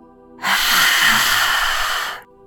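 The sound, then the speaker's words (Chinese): A lion's-breath exhale in yoga lion pose, pushed out with the tongue extended: one loud, forceful, breathy hiss lasting about two seconds that starts and stops abruptly. “呼吸十八，非常坦然有自信的吐出你的舌头。”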